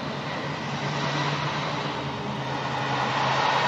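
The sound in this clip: Steady aircraft engine drone from an airplane breaking through the clouds, a loud, even roar with no breaks or voices.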